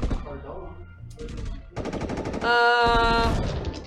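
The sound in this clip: Rapid automatic gunfire on a cabin: a short burst of fast shots, then a longer sustained stream of rattling fire, heard at a fairly quiet level.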